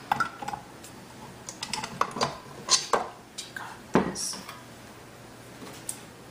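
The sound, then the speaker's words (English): A spoon is scraped clean against a mixing bowl of batter-like mixture, giving many quick, uneven scrapes and light clinks at a moderate level with brief pauses between them. “I'm just gonna scrape the spoon. I don't like waste, so we're just gonna scrape our spoon really well.”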